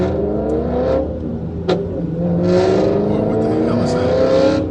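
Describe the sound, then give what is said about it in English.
A BMW with loud aftermarket exhausts revs, its engine note a sustained, throaty harmonic drone that swells and climbs again in the second half. “Someone has put I'm really, really go fast exhausts on a BMW and a little spoiler on the back because why not?”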